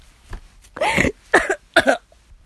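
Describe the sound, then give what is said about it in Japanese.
A person coughs after choking on something: three harsh, loud bursts in quick succession, with no talking. “あ、むせた。”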